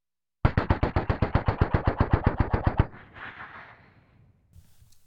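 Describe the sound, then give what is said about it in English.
A machine gun carried by a fake police officer in a gangster-era drama scene fires a rapid, evenly spaced burst of many loud shots for over two seconds, then fades into a dull rumbling echo. “What kind of phony police officer walks around with a machine gun?”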